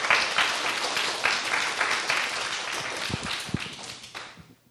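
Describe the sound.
Audience applause welcoming a speaker introduced by a pastor, as moderate clapping with some sharper individual claps that gradually fades toward the end.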